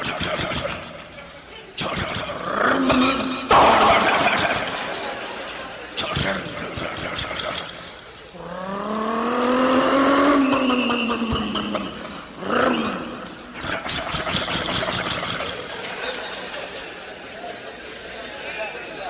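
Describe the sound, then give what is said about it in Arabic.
A GMC 454 engine runs and revs, its rough roar swelling into a long rev that climbs and then settles near the middle, with choppier bursts before and after and people talking throughout. “أما الآن مع صوت جيمس 454.”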